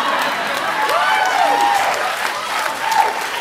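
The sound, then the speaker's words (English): An audience clapping at a live talk: steady, continuous applause with a voice speaking over it. “I don't know why you're clapping.”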